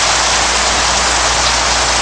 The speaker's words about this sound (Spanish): Está lloviendo otra vez.